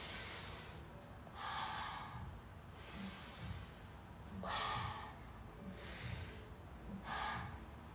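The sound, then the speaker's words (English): Three slow, deep human breaths, airy and hissing as the air is drawn in and let out, soft and evenly paced with no talking. “Let's do 3 deep breaths before we start our adventure.”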